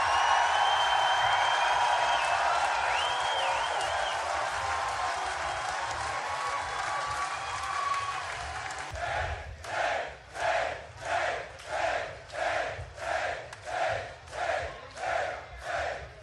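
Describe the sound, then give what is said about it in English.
A crowd at the Met Club roars and applauds a welcome for Dave Mustaine, a sustained wash of cheering that turns into a loud rhythmic chant in regular, evenly spaced pulses. “So please give a warm Met Club welcome to Mr. Dave Mustaine.”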